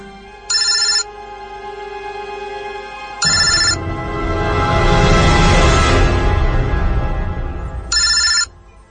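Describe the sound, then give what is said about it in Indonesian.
A mobile phone rings in short, bright, buzzy bursts, three of them spread out, with a loud swelling sustained sound rising and fading between the second and third rings. “handphone Asma berdering. Dia mengangkat telepon itu.”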